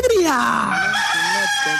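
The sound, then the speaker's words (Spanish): A rooster crowing: one loud crow with a strained, harmonic tone whose pitch falls steadily, followed by short tonal sounds. “El gallo es una chimba.”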